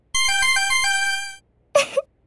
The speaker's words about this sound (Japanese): あ、お母さんからメッセージが。